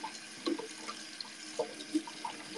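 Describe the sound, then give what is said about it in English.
Hands are washed under a running kitchen tap, with a faint, steady trickle of water and a few soft splashes scattered throughout. No talking. “So what I want to first do is wash my hands. It has to be very sanitary in the kitchen.”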